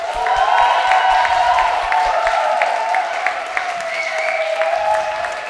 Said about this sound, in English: I want to have one more round of applause for these great organizers.